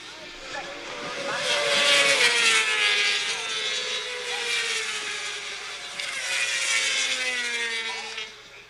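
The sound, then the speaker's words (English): Fast motorbikes race past, played back from a phone video, making tinny, high engine whines whose pitch glides slightly downward and that swell loud twice before fading. “Let me turn the volume up a bit, and then you can try and hear the bikes going by.”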